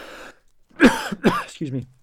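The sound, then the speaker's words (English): A slight cough comes as two short, harsh bursts in quick succession, close to throat clearing, with brief talk just before and just after. “So it's one thing for me to have a slight cough, but when you're talking to a guy who travels the world fighting infectious diseases, coughing is not what you want to hear.”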